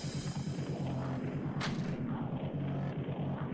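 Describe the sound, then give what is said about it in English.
A sharp ricochet-bullet gunshot in a video game, one bright crack over a dense, rhythmic low pulsing background that continues throughout. “He will try and take a shot at the corpsec guy. This is with the ricochet bullets.”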